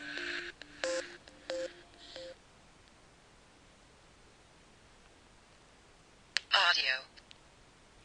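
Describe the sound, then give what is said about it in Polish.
A Motorola Milestone phone plays its startup melody, a short run of a few synthetic electronic notes that is faint over a quiet hiss, followed later by a brief bright burst of chirpy sound. “Milestone odtworzył taką muzyczkę startową, taką melodyjkę. W ten sposób sygnalizuje, że się uruchomił.”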